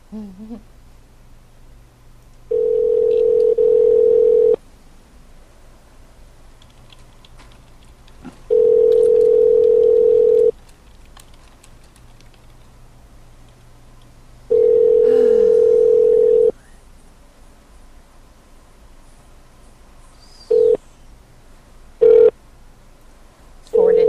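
Telephone line tones while calling someone back: three long, steady, low electronic tones spaced evenly with pauses between, followed by a few short keypad beeps, with no talk.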